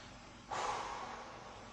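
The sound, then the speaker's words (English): A single sharp, breathy exhale from someone catching their breath. It is faint and starts abruptly, then trails off over about a second. “I'm catching my breath.”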